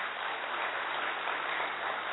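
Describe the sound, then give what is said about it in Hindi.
Audience applause, a steady, even roar of many hands clapping with no pauses or separate claps, holding a constant level throughout. “और duty पर वापस हैं आज भी, ताली बजा सकते हैं।”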